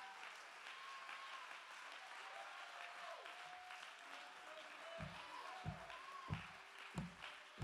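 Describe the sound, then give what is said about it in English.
Congregation clapping hands at a revival service, a faint continuous patter of many hands, with several heavier rhythmic claps in the second half. “Somebody clap your hand.”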